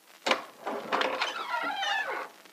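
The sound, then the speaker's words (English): A key clicks in the lock of a rear door, then the door swings open with a long, wavering creak. “Let's open it and take a look. It's locked. Oh, just a moment. I have the key right here. Thanks. Now let's have a look.”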